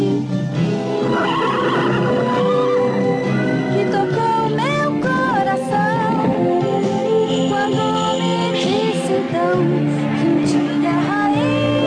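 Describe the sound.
A horse neighing and whinnying, several wavering calls with sweeping pitch glides heard over a dense, continuous harmonic backdrop that stays loud throughout.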